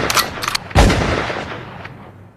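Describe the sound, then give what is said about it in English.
A single loud gunshot cracks out sharply and then decays, coming after a few short, softer noises. “Shoot them both, Brady. Where's your gun at?”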